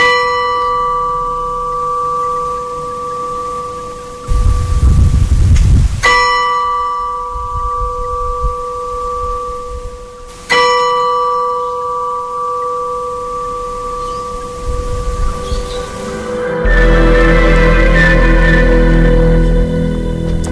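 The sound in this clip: Church bells ring out in a few heavy, resonant strikes, each leaving a long humming tone that slowly fades before the next. Near the end a denser, brighter peal takes over, with no voices present.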